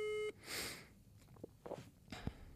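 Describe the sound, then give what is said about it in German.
A phone call's ringing tone opens with one short, loud electronic beep, followed by faint rustling and small knocks. “Ich rufe jetzt Joko an. Ruf den mal an.”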